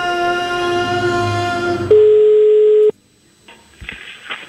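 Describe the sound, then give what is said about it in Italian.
A telephone call tone sounds while a call is placed: one steady, loud tone holds for about a second after a stretch of other tonal sound, then cuts off abruptly into faint noise. “Chiama Cappella.”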